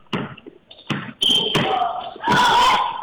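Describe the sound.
A basketball is dribbled during a game, landing in several heavy, booming bounces at an uneven pace, with voices around it.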